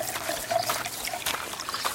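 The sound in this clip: Water trickles and leaks from many spots in rotten, corroded pipes. It makes a faint, continuous splashing dribble with small uneven spurts and no voices.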